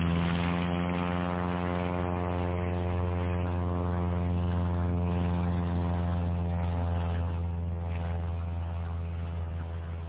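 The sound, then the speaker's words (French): A small propeller airplane's engine runs on the ground, a steady, loud, low droning hum with a strong buzzing tone that holds level throughout. “Par miracle, le moteur commence à tourner. L'avion démarre et après quelques hésitations bien compréhensibles, accepte de se tourner.”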